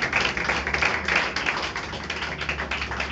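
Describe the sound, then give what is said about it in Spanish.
A church audience applauding during a worship service: many hands clap in a brisk, fairly regular rhythm, holding a steady moderate level throughout. “Denle un aplauso a Jesús, por favor, a la presencia del Espíritu de Dios.”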